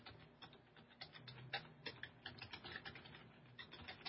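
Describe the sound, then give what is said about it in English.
A web address is typed on a computer keyboard in many quick, quiet keystroke clicks with an uneven, hurried rhythm and brief pauses. “Let me just type that in for you.”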